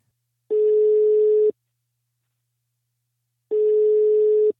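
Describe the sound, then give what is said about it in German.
A telephone rings on an outgoing call: two long, steady, droning beeps with a silent pause between them, heard alone. “Deshalb habe ich Naomi Walkland, die Marketing-Chefin von Bumble, angerufen.”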